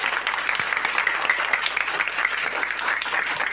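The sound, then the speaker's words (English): Audience applause at a school programme of Police Children's School 1 in Bauchi: steady, dense clapping from many hands at a moderate level, with individual sharp claps standing out across the few seconds. “A round of applause. This club is not good for me. I say a round of applause for them.”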